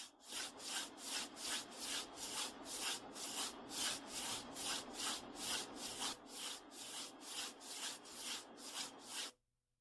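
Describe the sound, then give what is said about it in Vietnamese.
Bare soles of both feet are rubbed hard against each other during a self-healing meditation exercise, giving many brisk, evenly spaced swishing strokes in a steady rhythm that stop abruptly at the end. “chà mạnh hai lòng bàn chân vào nhau năm chục lần”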